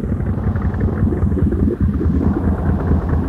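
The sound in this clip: A boat engine throttled down to idle gives a steady, dense, low-pitched rumble that holds even throughout, with no voices.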